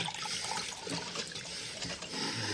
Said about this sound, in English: The waiter fills his glass.